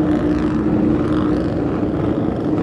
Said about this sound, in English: They're about to go out now on their BMW outfit for Welsh Pool and Whitby respectively.